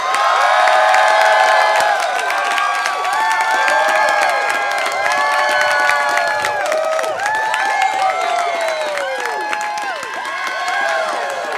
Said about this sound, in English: Ladies and gentlemen, please give a forceful welcome to Mr. John Boyega.